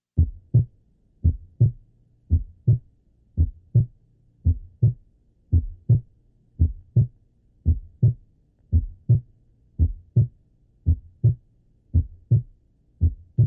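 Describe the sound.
Heart sounds with a weak first heart sound: low, dull thuds come in regular pairs, repeating many times at an even pace, with no talk.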